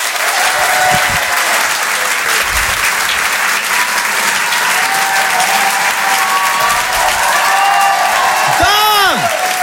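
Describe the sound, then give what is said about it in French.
A comedy theatre audience gives a comedian loud, sustained applause and cheering, steady throughout, with a shrill whistle near the end. “Je demande un maximum de bruit, s'il vous plaît, pour Yann Guillaume.”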